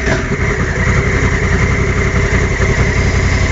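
An engine fired up and running at a steady idle, a loud, throbbing low rumble with a rapid, even pulse and no voices.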